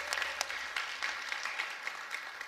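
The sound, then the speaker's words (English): A church audience applauds to welcome guests at a Sunday service, with soft, steady clapping and scattered sharper claps throughout. “If you're a regular here at the church, let's just put our hands together and welcome all of our guests to the Bridge today.”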